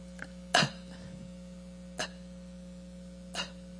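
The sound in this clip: A voice imitates desperate gasps for air: three short, sharp intakes of breath spaced more than a second apart, the first loudest, over a low steady hum.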